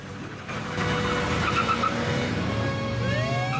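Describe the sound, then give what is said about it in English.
A police car speeds off with its rear wheels spinning on the road. A loud, sustained engine roar mixes with tire squeal, and a rising whine appears near the end. “He roars away with the rear wheels spinning on the road.”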